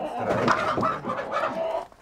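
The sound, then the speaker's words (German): Four laying hens and a rooster, panicked and frightened while being caught, cluck in busy, overlapping agitated bursts that run almost without a break, then taper off at the end. “Vier Legehühner und ein Hahn müssen mit.”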